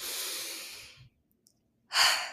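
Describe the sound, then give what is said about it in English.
A deep breath during a guided meditation exercise: a long, soft breathy hiss that fades away, a silent pause, then a second, stronger breathy rush of air. “one more deep breath with me before we move forward.”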